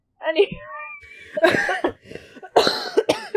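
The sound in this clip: Harsh, raspy coughing in a few irregular bursts comes from someone with cinnamon from an apple crumble stuck in the back of the throat, with short quiet gaps between the fits.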